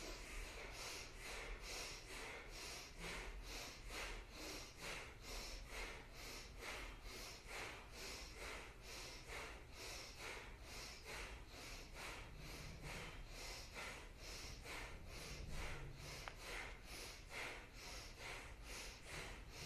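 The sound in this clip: Forceful bhastrika bellows breathing during a kriya meditation, with many rapid, evenly spaced breaths pumping in a steady rhythm throughout. Each breath sounds as a sharp, snorting rush of air, and no one speaks.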